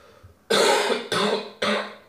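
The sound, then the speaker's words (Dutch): Three harsh coughs from one person in quick succession, each a loud, rough burst separated by brief pauses, with the last one slightly shorter, and no talking around them. “Ga ik me even hoesten.”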